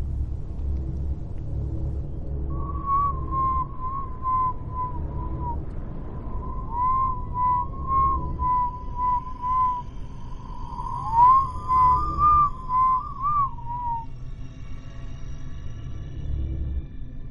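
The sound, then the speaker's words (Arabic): Eerie whistling in a dark haunted house: a thin, wavering tone held in a few long phrases, with one sliding dip near the end, over a steady low rumble. “تخيل معايا انت واقف في الضلمة في بيت عارف انه مسكون ولوحدك والدنيا كحل وحد بيصفر لك.”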